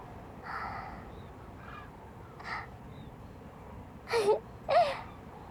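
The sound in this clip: Cranes call at their roost in a few separate, rough, honking bursts over a quiet background, with the last two calls louder and closer together.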